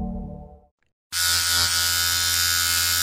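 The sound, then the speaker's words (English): An electric shaver shaving a face starts abruptly after a fading low hum and a moment of silence, then holds a loud, bright, steady buzzing drone for about two seconds. “So smooth, so crisp. There we go. Smooth, crisp butt cheeks, right? I was shaving my face.”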